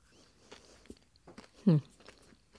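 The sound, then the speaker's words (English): Biting into a soft, sandy-textured tahini cookie with an iced top sprinkled with sparkly sanding sugar: one distinct crunchy bite, then faint, scattered chewing sounds alone. “that cookie really crumbles in your mouth. They have a very soft, sandy texture. And they are heavy on the tahini.”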